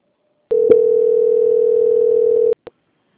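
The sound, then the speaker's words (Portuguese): A steady, single-pitched telephone line tone holds for about two seconds while a bank customer-service call is transferred to quality control, then cuts off, followed by a short blip. “peço que aguarde em linha, que vou transferir o contato para o controle de qualidade, que dará continuidade.”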